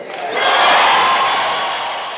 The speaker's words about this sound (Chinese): 消息传出之后，首都街头汽车笛声阵阵，大众欢呼雀跃。